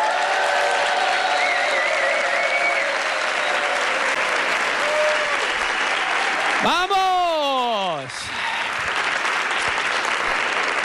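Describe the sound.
A large audience claps and cheers at a comedy talk-show taping in a Madrid venue. The applause is steady and dense throughout, and a single voice shouts out above the crowd partway through.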